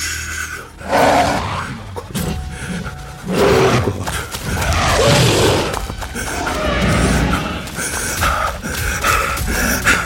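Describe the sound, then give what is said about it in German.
A wolf, or a wolf-like creature, growls and snarls in loud, rough bursts, with heavy breathing and snorts running almost continuously between the louder roars. “Oh, das ist ein Wolf. Also sowas in der Art.”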